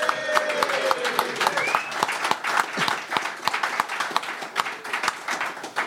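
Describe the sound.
An audience applauds a guest, a former Tottenham manager, with brisk, dense clapping that runs for about six seconds and dips slightly toward the end.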